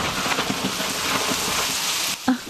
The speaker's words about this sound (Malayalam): പുറത്ത് മഴയാണ്, ശക്തമായ ഇടിയും മഴയും.